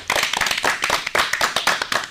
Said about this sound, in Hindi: बिल्कुल सही जवाब, जोरदार तालियां हो।